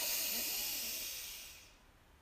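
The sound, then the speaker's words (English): A single long exhale during a guided breathing exercise: a soft, airy hiss that starts strong and fades away over about two seconds, heard alone. “Deep breath in, and out.”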